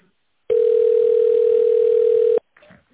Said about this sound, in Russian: Оставайтесь на линии. Ваш звонок будет переадресован на оператора.